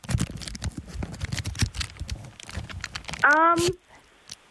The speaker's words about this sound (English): Oh, I'm unwrapping it now.